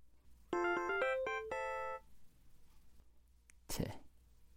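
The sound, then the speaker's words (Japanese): A LINE messaging app notification chime plays a quick, bright melodic run of several tones lasting about a second and a half. A short breathy burst follows soon after. “LINE は昨日の男からじゃん。”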